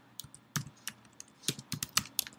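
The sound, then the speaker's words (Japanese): Keywords are typed into a search field on a computer keyboard, giving many quiet, uneven key clicks in quick bursts, with no talking. “キーワードの欄にキーワードを入力していきます。”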